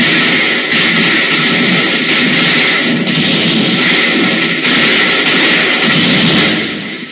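Colonial soldiers defending a hill against British attackers fire a gunfire volley, heard as a loud, dense, continuous roar of overlapping shots that holds steady for several seconds before easing slightly at the end.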